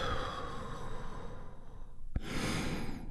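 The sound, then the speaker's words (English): A deep breath is slowly released, a long breathy rush of exhaled air that is soft and steady, with a short break before a brighter final puff. “deep healing breath with me right now. Here we go. And release.”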